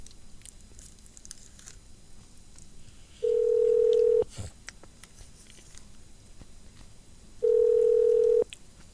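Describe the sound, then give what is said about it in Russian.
Telephone ringback tones sound while a call connects to a shop: two steady, mid-pitched beeps about a second long each, separated by a few seconds of faint background noise. “Для соединения с магазином на Московском шоссе нажмите 1.”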